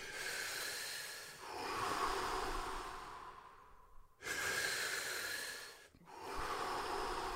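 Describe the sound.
Deep, forceful breathing during a guided breathing exercise, filling belly and chest, comes as a few long, loud airy breaths separated by brief pauses, with no talking.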